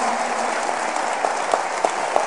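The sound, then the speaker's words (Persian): Wedding guests clap at a celebration, a steady, loose-sounding patter of applause with a few sharper individual claps standing out toward the end. “خیلی شل دست میزنیم، حیف نیست دست پایین باشه، بیاری دست تو بالا کف بزن”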